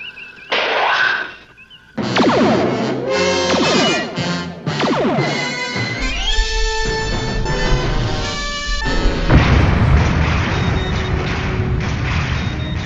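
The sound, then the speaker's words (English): Sci-fi starship phaser fire, shots that fly out and then explode in a pattern: loud, layered electronic zaps with falling, chirping sweeps, followed by booming blasts over a deep, continuous rumble. “the phasers that they're firing appear a lot like torpedoes. They shoot out, and then they sort of have a proximity setting where they explode in a pattern”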